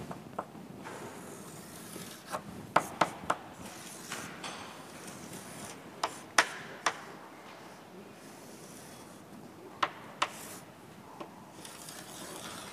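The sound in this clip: Faint scratching of a pen drawing a circuit diagram in blue on a board: a soft continuous rasp broken by many scattered sharp ticks.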